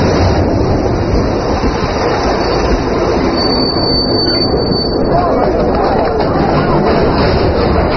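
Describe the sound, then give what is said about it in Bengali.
A train at a station, with a loud, unbroken rumble and rattle throughout and a steady thin whine riding high above the dense noise. “স্টেশনে train থামতে না থামতেই যাত্রীদের মধ্যে হুলস্থুল বেঁধে গিয়েছিল”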